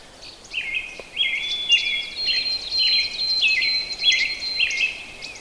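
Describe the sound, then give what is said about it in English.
A robin singing some way off, a series of short, clear whistled phrases separated by brief pauses, repeating steadily and fairly faint over a quiet background. “A little closer to that robin that was singing. And that's a song you've got to kind of learn.”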